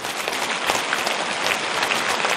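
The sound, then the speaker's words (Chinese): An audience at a Buddhist gathering gives warm, continuous applause to welcome a speaker. Many hands clap in a dense, even roar that stays fairly loud for the whole stretch, with no voices standing out. “现在让我们用最热烈的掌声恭请我们尊敬的卢军宏台长。”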